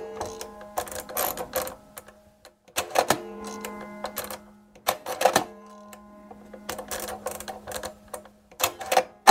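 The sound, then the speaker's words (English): An early hand-cranked encryption machine, of the primitive kind used by the United States in World War II, clatters as it encodes a message: irregular bursts of mechanical clicks and ratcheting separated by short pauses, with a faint low hum between. “That is the sound of one of the early primitive encryption machines that countries used, in fact, the United States used in World War II.”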